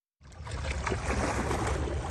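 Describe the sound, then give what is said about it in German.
Sea waves strike a protective seawall at a fishing village near Bangkok that the sea is slowly flooding. A loud, dense rush of water begins abruptly after a moment of silence and surges on steadily. “Die Wellen schlagen gegen die Schutzmauer.”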